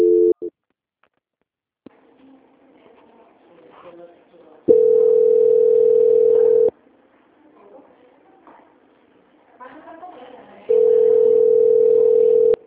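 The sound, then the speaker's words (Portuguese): Telephone dial tone after a dropped call: a steady, even tone in two stretches of about two seconds each, plus a brief burst at the very start, with quieter low sound in between. “Ah, sim, caiu a ligação.”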